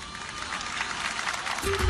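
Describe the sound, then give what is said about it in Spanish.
Applause from an audience, a steady, moderately faint patter of many hands clapping that swells slightly near the end. “Y le cae un aplauso.”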